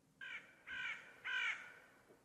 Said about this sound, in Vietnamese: Con quạ nhìn thầy chầm chập, đoạn kêu lên mấy tiếng.